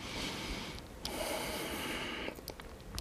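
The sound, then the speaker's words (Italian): Heavy exercise breathing during leg workout repetitions: two long, loud breaths, then a few shorter, sharper puffs, with no talking. “quando faccio questo lavoro c'è sempre la respirazione, che sarà espiro, inspiro, espiro, inspiro.”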